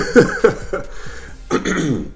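A man clears his throat with a few short, gruff, rasping bursts, followed by a rougher, drawn-out throaty sound.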